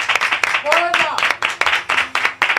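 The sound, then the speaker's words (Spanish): Audience applause on a radio show: sharp, rhythmic clapping repeats steadily throughout, with a voice talking over it. “Anda, anda, vamos a un aplauso.”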